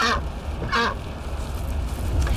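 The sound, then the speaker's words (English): A duck riding in the back seat of a car gives two short, nasal honking calls, one at the start and one a moment later, over a low, steady rumble. “Oh, and we brought the duck.”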